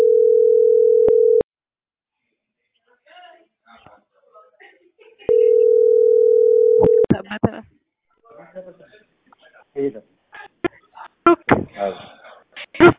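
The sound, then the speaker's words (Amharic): A telephone gives a steady electronic tone while a call is placed back to the number that rang. Two long, unbroken tones are separated by quiet with faint murmuring, and a person then talks and clears their throat after the second tone. “አይ እየደወልኩለት ነው በደወለበት ስልክ።”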